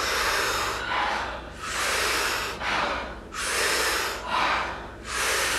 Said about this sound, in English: taking about 40 powerful breaths into the body through the mouth. And as you exhale, it's a soft exhale. We do it rhythmically, we do it together, and it sounds like this.